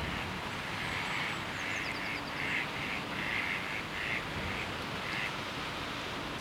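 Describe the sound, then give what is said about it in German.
Ducks quacking on a pond, with many short, nasal quacks coming in irregular clusters over steady, rough background noise. “Die Enten dümpeln. Enten dümpeln in Tümpeln.”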